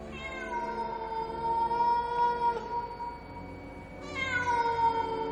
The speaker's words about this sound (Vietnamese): Bất chợt có tiếng mèo kêu khiến cho cả ba người giật mình.